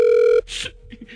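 A telephone ringing tone sounds while a call is being placed: one steady electronic tone lasting under half a second cuts off abruptly and is followed by brief, faint breathy noises.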